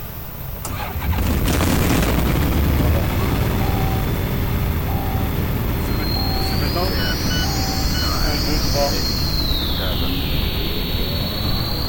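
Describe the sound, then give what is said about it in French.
Light aircraft piston engine being started with both magnetos switched on: cranking begins about a second in, then the engine catches into a loud, steady run, with sweeping whining tones rising above the drone later on. “Starter, les deux magnétos branchés. Et on va essayer de démarrer.”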